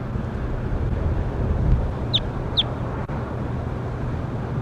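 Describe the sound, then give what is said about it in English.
Two short, high chirps of a bird call recorded in the field, about half a second apart, rising above steady wind noise. “Start recording bird K1.”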